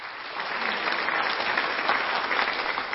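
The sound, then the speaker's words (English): A church audience applauding during a service, a dense, steady wash of many hands clapping together at an even, fairly loud level. “Can we give a hand clap to rejoicing in heaven for what God does?”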